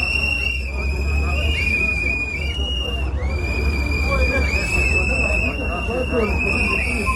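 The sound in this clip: A protest crowd in Bosnia and Herzegovina blows whistles: many shrill, high whistle blasts repeat almost without pause over a low crowd murmur, with a voice talking over them.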